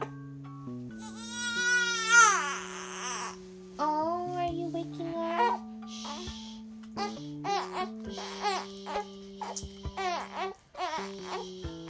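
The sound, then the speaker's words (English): A baby cries after its pacifier fell out of its mouth: wavering, whining cries and moans rise and fall in pitch over a steady tonal background. “He loves to moan in his sleep sometimes, but he just cried right now because his pacifier fell out of his mouth.”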